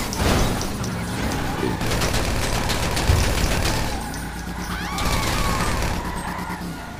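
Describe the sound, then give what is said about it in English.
Gunfire in the video game GTA 5 during a drive-by: dense, rapid bursts of shots over a continuous rumbling din, with a couple of busier volleys standing out. “Trying to shoot the boss.”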